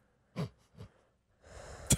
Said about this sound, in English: Breathing heavy into the microphone. I can't even say it. I didn't even say anything. It didn't matter. It was heavy breathing. I was catching my breath.